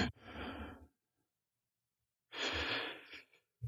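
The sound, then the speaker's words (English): A deep breath taken slowly: two long, airy rushes of breath separated by a stretch of silence, soft and unaccompanied by talk. “Here, let's take a breath.”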